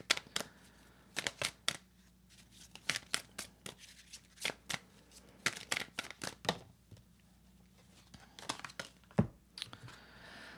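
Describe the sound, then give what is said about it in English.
Cards for a love reading are shuffled and pulled, making soft, faint riffles, flicks and papery slides. They come in many short bursts with quiet gaps between them. “Okay, let's pull a deep desire card and a love message here.”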